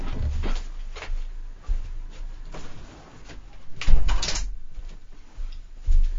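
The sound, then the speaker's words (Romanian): A balcony door is being closed, giving a series of muffled knocks and rattles with a louder bump toward the end, over a steady background hiss. “sau să închid ușa”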